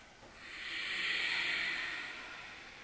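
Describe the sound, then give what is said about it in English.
Ujjayi breathing during an all-levels power flow yoga class makes a single soft, airy hiss. It swells gradually, peaks, and fades over a few seconds, staying faint throughout. “Ujjayi. Breath.”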